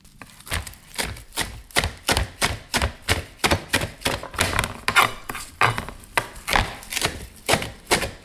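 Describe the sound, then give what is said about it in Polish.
Fresh parsley being coarsely chopped with a knife: many quick, crisp chops in a steady, even rhythm, each a short sharp knock, heard alone without talk. “Powiedziałabym, że zgrzebnie posiekana natka pietruszki.”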